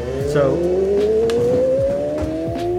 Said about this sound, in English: We got motorcycles outside.